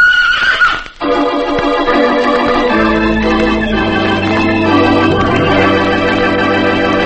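A mule sound effect as the animal charges, a harmonic, neigh-like call that holds steady over a layered tonal background for about seven seconds, loud throughout after a brief dip near the first second.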